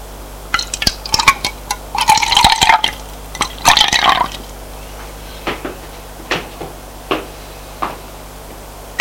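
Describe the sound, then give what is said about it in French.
Water poured from a bottle into a glass, heard as a few seconds of bubbly splashing in the middle, then a run of sparse, separate drips and light taps. “Et une bouteille. Remplis le verre d'eau.”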